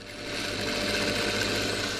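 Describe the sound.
A sewing machine runs in a tailoring workshop in Goma as a fashion designer finishes a new collection, giving a loud, steady, unbroken whirring drone throughout with no pauses or talk.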